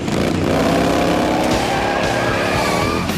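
A group of Harley motorcycles roar off down a road together, their engines giving a loud, continuous, throaty drone with layered revving tones.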